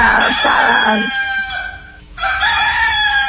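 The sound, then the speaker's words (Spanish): A played recording of a rooster crowing: a loud, long, strained call that briefly dips near the end, then swells again as the crow continues. “Que me pongan el gallo. ¿Pero el gallo por buenos días o qué?”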